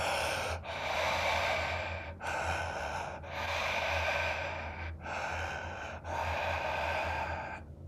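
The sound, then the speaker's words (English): Conscious connected breathing demonstrated in a breathwork example: loud, deep airy inhales and exhales run one into the next with only brief dips between them, a steady rhythmic cycle of several breaths and no talking. “breathwork today is used generally for something that's called a conscious connected breath, which is an odd breath. And I'm going to give you an example. It goes like this.”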